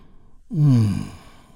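A person releases a deep breath in one long, audible exhale that lasts under a second, breathy and softly voiced, sinking slightly in pitch before fading into quiet.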